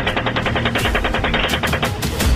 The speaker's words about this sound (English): I'm gonna fire. Oh, we got a guy shooting. Now he's behind the building. Come on, fire.